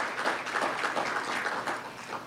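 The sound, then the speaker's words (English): Applause from an audience following a government minister's address, a moderate, continuous patter of many hands clapping with slight rhythmic surges throughout. “Let's give a round of applause again.”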